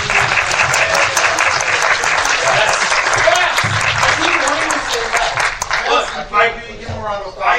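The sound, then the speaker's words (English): A round of applause on a spelling game show before the bonus round, loud, dense clapping that stays steady, then eases off as a voice begins speaking near the end. “I'd like to give a round of applause.”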